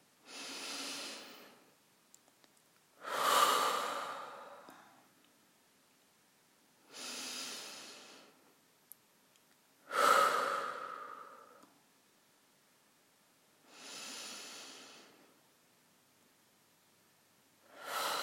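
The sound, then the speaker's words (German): Slow, deep breaths taken to settle down, with airy inhales and exhales in an even, unhurried rhythm separated by quiet pauses. Several soft breath sounds are heard, with no talk. “was mir beim Ankommen immer hilft, ist, wenn ich einmal 2, 3 tiefe Atemzüge nehme.”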